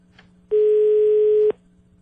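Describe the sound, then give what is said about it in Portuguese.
Telephone ringback tone while a call connects: a single steady tone held about one second at a fixed pitch, starting and stopping abruptly over a faint low hum. “Tá chamando?”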